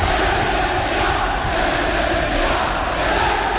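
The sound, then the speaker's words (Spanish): A football crowd roars at El Molinón stadium during Sporting's 3-2 win over Levante, with fans demanding the coach's exit. The loud, continuous wall of many voices holds at a steady level without a break. “De los partidos de ayer destacamos la victoria del Sporting 3-2 ante Levante, un molinón donde se pidió la marcha de Javier Clemente. Vamos a oír la reacción del público”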